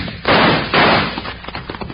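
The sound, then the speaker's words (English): Two loud, sharp gunshot bursts about half a second apart ring out during a western holdup over saddlebags of gold. Each blast has a rough, decaying tail, and scattered quieter noise follows. “That was a nice shot. But I didn't mean to shoot.”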